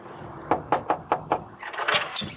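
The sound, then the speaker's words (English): Five quick, evenly spaced knocks rap on a door, followed by a burst of muffled rustling. “One knock on your door.”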